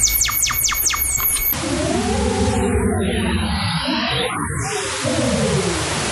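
A photograph of a person's face converted into sound by Photosounder software: a few quick falling whistles, then a loud, dense, steady wash of hissing, buzzing tones that churns without a clear rhythm.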